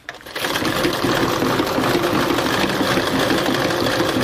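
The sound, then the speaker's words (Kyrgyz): A sewing machine runs steadily as it stitches a traditional Kyrgyz belt before any decorative patterns are added. The fast, even mechanical whir starts almost at once and holds at a constant level until the end, with no voices. “кемер кемер тигип атам азыр оймалар түшүрө элек просто эле буну тигип атам анан оймаларын кийин түшүрөбүз”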